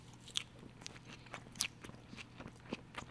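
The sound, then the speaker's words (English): Someone eating marinated mozzarella: faint, moist chewing with soft clicks and a few sharper bites scattered irregularly, alone without talk. “Wow, that marinated mozzarella is delicious.”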